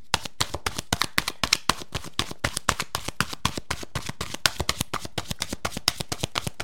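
Tarot-style message cards being shuffled make many quick, crisp papery flicks and taps in a fast, steady rhythm, fairly soft and with no talking.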